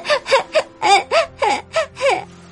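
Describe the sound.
A young boy sobs in a run of short, choked, gasping whimpers, each a brief tearful burst with a small catch of breath between them, steady and fairly loud with no talk.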